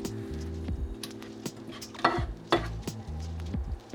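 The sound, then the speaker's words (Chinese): Beaten egg poured into a pan for a diced wagyu beef rice bowl, with soft sizzling, stirring and a few light clinks of utensil on pan, plus two louder knocks in the middle. “好，那最后呢？我们要把这个蛋淋上去。”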